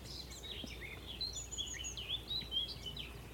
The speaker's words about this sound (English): A willow warbler.